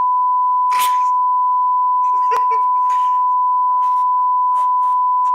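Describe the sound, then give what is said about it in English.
A censor bleep: one loud, pure, steady tone held unbroken for the whole clip, with faint muffled speech underneath. “Thank you for all the beeping I'm going to have to fucking do.”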